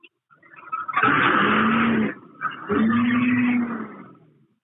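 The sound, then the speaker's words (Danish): A fuel-powered car engine is revved twice with the door open, each rev a loud, sustained roar of about a second, the second one fading away slowly. “så prøver vi lige at give lidt gas her med åben dør”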